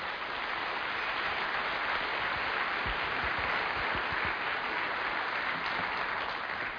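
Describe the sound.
Church audience applauding to welcome a guest preacher; steady, faint clapping from many hands runs evenly through the whole stretch without a break.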